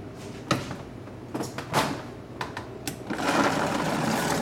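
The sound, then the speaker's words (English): An electric blender blends a salad dressing made with balsamic vinegar, starting after a few scattered knocks and clatters, then settling into a loud, steady whirring drone. “So add 1 tablespoon of that. And 1 tablespoon of balsamic vinegar. And now we're gonna blend it up.”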